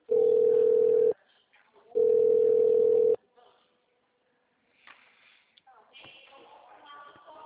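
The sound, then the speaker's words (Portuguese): Two long, steady, mid-pitched telephone tones sound during a call transfer, each lasting about a second with a short gap between them. A quieter stretch of faint line noise follows. “Aguarde, estamos transferindo sua ligação.”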